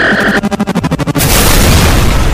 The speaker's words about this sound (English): There will be no further warning shots.